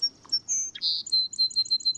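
Birds sing with high, thin whistled notes and chirps: a few longer slurred tones, then a quick, evenly spaced series of short repeated chirps, clear and alone with no talk.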